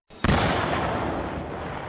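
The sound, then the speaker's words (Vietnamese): A simulated bomb explosion set off by the FBI to show what similar bombs would do aboard an aircraft: a sudden, sharp blast followed by a long, loud roaring rumble that fades only slowly. “Cục điều tra liên bang Hoa Kỳ tức FBI đã thực hiện một vụ nổ mô phỏng để cho thấy hậu quả sẽ ra sao nếu những quả bom tương tự phát nổ trên máy bay.”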